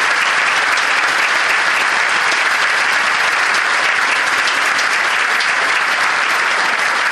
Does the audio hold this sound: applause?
yes